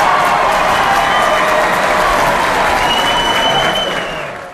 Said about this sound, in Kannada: ಚಪ್ಪಾಳೆ ಅಷ್ಟೇ ಅಲ್ಲ, ಶಿಳ್ಳೆನೂ ಕೇಳಿಸ್ತಾ. ಶಿಳ್ಳೆನೂ ಸದ್ದು ಕೇಳಿಸ್ತಾ ಇದೆ.